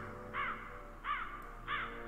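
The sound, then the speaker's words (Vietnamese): A crow caws from a rooftop: three harsh, evenly spaced calls, each a short raspy burst, standing out alone over a faint steady background hum. “Từ trên mái nhà vang lên tiếng của con quạ đang lạc bầy, bay vọt lên trên.”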